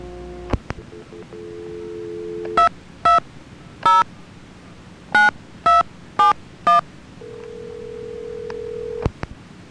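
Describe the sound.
Telephone dialing tones while a call is transferred: a steady dial tone, then seven short, loud keypad dual-tone beeps in an uneven rhythm, ending in another long steady tone.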